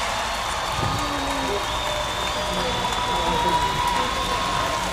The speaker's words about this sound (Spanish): Un aplauso. Muchísimas gracias.